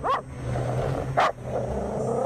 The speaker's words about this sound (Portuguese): Rico Suave, por que você tá latindo, hein? Cachorro danado.